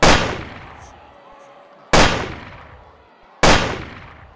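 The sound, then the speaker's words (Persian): Three rifle gunshots fired at a presidential motorcade in Dealey Plaza, each a sharp, loud crack followed by a long decaying echo, spaced roughly one and a half to two seconds apart. “صدای سه شلیک مرگبار فضا رو پر میکنه.”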